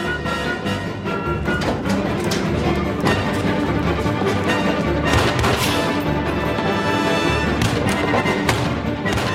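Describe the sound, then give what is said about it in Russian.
Gunfire during a film chase scene across a courtyard gallery, with shots fired from a window, a few sharp reports buried in a dense, loud, continuous soundtrack. “Гоцман стреляет по нему из окна. За Чеканом по галерее бегут Якименко и Тишак. Внизу, по двору, Чекана преследуют двое оперативников. По бандиту стреляет и майор Кречетов. Чекан отстреливается.”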